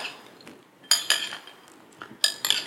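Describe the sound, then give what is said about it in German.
Spoon clinking against a bowl while muesli is mixed with nuts and coconut flakes: a few bright metallic clinks and scrapes in short clusters, with quiet gaps between them and no talking. “macht man sich ein paar Nüsse drunter. Oder Kokosflocken. Oh ja, Kokosflocken würden auch ideal sein, richtig. Man mischt es.”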